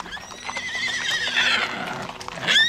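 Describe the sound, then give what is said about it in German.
Horses neigh on a steep mountain path where they can climb no further: a drawn-out, wavering whinny, then a second sharp whinny near the end, with hoof clatter underneath. “Die Pferde können nicht weiter den Berg hinaufmarten. Die rutschen aus und brechen sich die Beine.”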